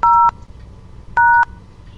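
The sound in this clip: Two touch-tone DTMF beeps dialing a phone extension at an automated answering system: each loud, steady tone lasts about a third of a second, separated by a pause of nearly a second.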